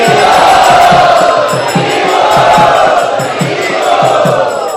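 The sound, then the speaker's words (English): A crowd at a devotional gathering chants loudly together in welcome, a dense, sustained wash of many voices over a regular pulsing low beat that keeps steady throughout. “And let us welcome him by loudly chanting.”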